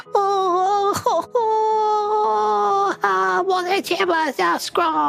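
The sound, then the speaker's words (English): A human voice imitates a mitflit creature wailing and keening: loud, sustained high cries with wavering, sliding pitch, broken by a few short gaps and catches. “he rears his head back and begins to wail and cry and begins keening”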